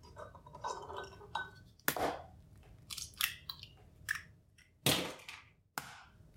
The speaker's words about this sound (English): So now I'm going to drain my eggs of the water and crack them in the bowl.